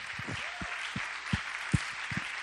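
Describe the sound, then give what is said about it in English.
A church audience applauds its young people during a morning service: dense, steady clapping with a few sharper, louder claps standing out. “I think the church family ought to give their young people a round of applause this morning.”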